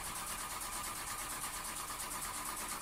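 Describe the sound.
A car engine cranking and failing to catch, a loud, continuous, rapid churning whir that stays unchanged throughout with no sign of the motor firing up.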